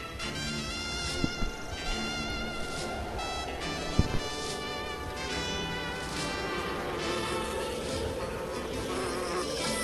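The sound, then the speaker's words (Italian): Flies buzzing steadily in a western scene, a dense, continuous insect drone that runs the whole time at an even level, with a few faint clicks early on. “Mosche, ovviamente.”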